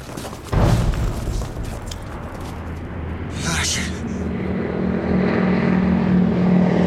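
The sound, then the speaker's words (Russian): Airplane engine droning as it circles over a wartime fortress: a rough, steady hum with broad rumbling noise that starts abruptly, then holds and swells slightly. “Над крепостью кружит самолет.”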